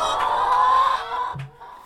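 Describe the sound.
Chickens cluck in a dense, continuous burst of overlapping calls that then drops to a quieter, thinner tail.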